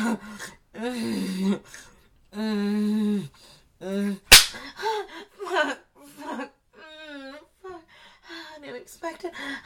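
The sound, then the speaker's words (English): A single sharp slap of a hand spanking bare skin cracks out once near the middle, brief and loud, surrounded by breathy, drawn-out moaning and laughing vocal sounds that rise and fall. “I know I love when you spank me.”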